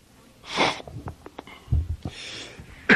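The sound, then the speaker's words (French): Coughing: a few short, harsh, noisy bursts separated by small clicks and throaty thumps, heard on their own without speech. “Excusez-moi, j'ai une toux.”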